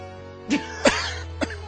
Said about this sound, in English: I am coughing a little bit, but that's my own fault. That's because I'm drinking